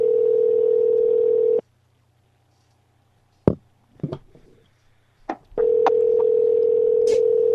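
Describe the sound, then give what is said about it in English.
A telephone call rings unanswered: a steady ringback tone sounds for about a second and a half, falls silent for several seconds with a few faint clicks, then sounds again. “is this really Walmart or is this just a number that rings?”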